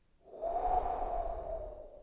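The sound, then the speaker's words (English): A deep breath drawn and released, heard as a loud, breathy rush of air that swells quickly and then sustains steadily for nearly two seconds, with no talking. “So take a big, long inhale and blow.”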